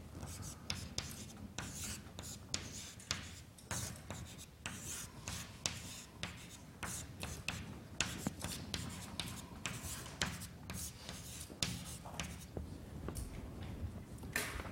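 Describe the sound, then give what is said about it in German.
Handwriting, including an equals sign, scratches steadily across a writing surface in many quick, irregular rubbing strokes with short gaps between them, over a faint low hum for the whole stretch. “Ich habe ein Gleichheitszeichen deswegen dazwischen geschrieben, weil die beiden Darstellungen sind identisch.”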